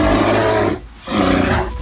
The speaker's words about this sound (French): on a vu que c'était un ours hein, quand même hein. Ouais, on a reconnu l'ours.